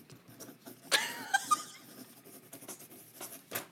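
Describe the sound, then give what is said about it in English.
A pen writes vigorously on paper, making a run of quick, scratchy strokes. They are mostly faint, with a brief louder burst of scribbling early on and a few sharper scratches after it. “Why are you writing so vigorously?”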